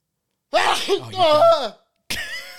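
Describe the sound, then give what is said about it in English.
A man lets out a loud, abrupt sneeze with a breathy, voiced trail. After a short pause, another brief vocal sound follows. “Fucking hate sneezing. Sorry.”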